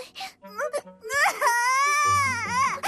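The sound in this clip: A baby cries: a few short whimpering sobs, then a long, loud wail that wavers in pitch.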